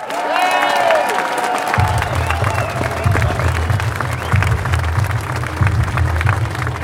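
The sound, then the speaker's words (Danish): A crowd applauds and cheers at a Danmarksdemokraterne party event as party leader Inger Støjberg is welcomed. Dense clapping mixes with shouts and whistles, and a low, rhythmic music beat joins in after under two seconds. “En kæmpe hånd til Inger Støjberg!”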